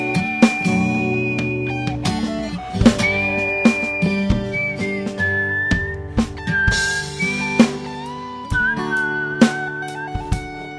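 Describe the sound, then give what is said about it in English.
A person whistles a tune in a high, wavering melody that moves in steps between long held notes, over regular strummed chords. Loud and clear, with no talking. “All my whistling's terrible.”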